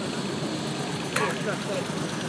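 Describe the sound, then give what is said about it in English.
Car engine running as the car is brought out beside the commentary box at a vehicle show, a steady mid-pitched idling rumble with a slight knock, holding level throughout while people talk over it. “We're just going to bring the car out here to the left of the commentary box.”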